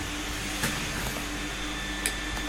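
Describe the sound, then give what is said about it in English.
A vacuum cleaner runs as a steady, faint droning whir with a constant hum beneath it, broken by a couple of brief ticks. “we're just taking a break until the air, vacuuming stops”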